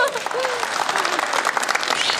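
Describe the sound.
An audience applauds steadily in a dense, even clatter of clapping that holds at one level throughout, with a voice briefly audible near the start.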